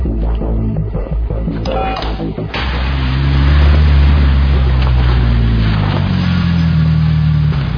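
A car engine with its left bank running lean, from a video game. Mixed mechanical clatter comes first, then a loud, steady low drone that builds and holds to the end.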